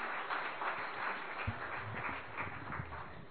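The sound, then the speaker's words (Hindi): An audience claps to welcome a group of singers about to perform. The patter is faint and continuous, with a few low thumps mixed in. “हम सबके स्वागत में जो गीत प्रस्तुत करने के लिए आ रहे हैं, उनका स्वागत हम अपनी करतल ध्वनि से कर लेते हैं।”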